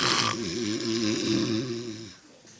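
Loud snoring from a drunk man asleep: one long, rasping, rumbling snore with a wavering throaty buzz. It holds steady, then fades away at the end.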